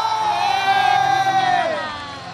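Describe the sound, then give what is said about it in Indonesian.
Audience cheering for a singer's performance: a loud, sustained crowd roar full of shouts and whoops that eases slightly toward the end. “boleh-boleh-boleh tepuk tangan untuk Rara, boleh-boleh-boleh”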